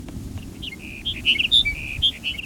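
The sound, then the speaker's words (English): Sage Sparrow song: a short series of thin, high chirping notes that starts faintly, then builds into a brighter, louder twittering phrase of quick tinkling notes with no voices. “Here's Sage Sparrow number 5”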